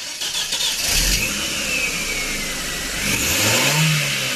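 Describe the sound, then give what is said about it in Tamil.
A car engine runs with a steady, loud mid-pitched drone that swells slightly toward the end. “காரை start பண்றேன்.”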